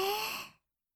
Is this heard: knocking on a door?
no